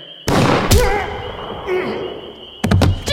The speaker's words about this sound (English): Who fired that shot?